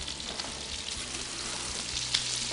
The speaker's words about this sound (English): All right, so let me just toast this bacon up just a little more. You like your bacon crispy?